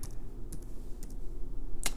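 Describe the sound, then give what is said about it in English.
Typing on a computer keyboard: a few scattered, crisp keystroke clicks at irregular intervals over a low, steady background hum, with no talking. “Let's see here. Stand by. If I can learn how to type faster,”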